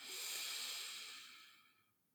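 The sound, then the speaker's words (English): A single deep breath, an airy, breathy hiss that starts strong and slowly fades away over about two seconds. “Inhale. And let it go. Last one. Big, deep breath in.”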